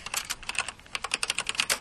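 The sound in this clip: Quick typing on a computer keyboard while writing a social media post: many light, crisp key clicks in an uneven rhythm with a few short pauses, faint and with no talk.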